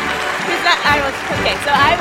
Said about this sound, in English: Radio listeners, internet listeners, what's happening now on stage is that people are running on, giving Nicole flowers and cheering her.